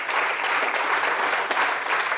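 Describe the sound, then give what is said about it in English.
An audience applauds a pastor with dense, continuous clapping that stays fairly loud and even throughout, with no breaks or voices. “Can we clap, by the way, and just thank Pastor Chad?”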